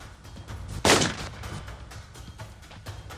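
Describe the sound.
A fast-drawing gunslinger fires a single loud, sharp gunshot whose blast fades into a brief tail over a low, rumbling background.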